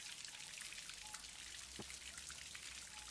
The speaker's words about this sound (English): I mean, it's raining.